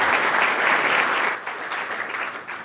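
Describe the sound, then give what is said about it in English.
Audience applause welcoming an author to the stage at a book talk: loud, dense clapping that holds steady and then thins out toward the end. “Please give a warm welcome to David Weinberger.”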